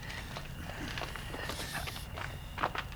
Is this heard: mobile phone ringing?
no